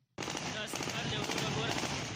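Taliban fighters fire celebratory gunshots into the air at Kabul airport after the Americans leave. The dense, rapid bursts of gunfire start abruptly and crackle on loudly without a break.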